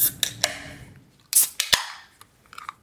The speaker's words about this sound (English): Always a good can. Popping sound over the fresh mic there.